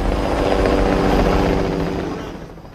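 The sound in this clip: A helicopter flies with a loud, throbbing rotor drone that holds steady, then gradually fades over the final second.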